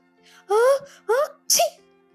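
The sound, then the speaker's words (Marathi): A voice imitates a vixen sneezing. Three loud vocal bursts follow one another, and the last ends in a sharp, hissy sneeze. “ती गुदमरली आणि फटाफटा शिंकायला लागली आक्षी”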